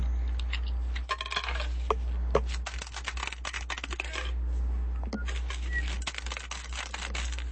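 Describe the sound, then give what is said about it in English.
Percentage dice rolled for spot checks in a RuneQuest tabletop game: scattered small clicks and rattles of dice tumbling on a surface, over a steady low hum. “Roll your spot checks. And are they percentage dice?”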